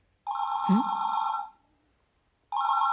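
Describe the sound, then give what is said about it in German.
Telephone ringing in a radio drama: two bright electronic trills, the first lasting about a second, then a pause, and the second cut off at the end. “Das Telefon klingelt. Das Telefon klingelt.”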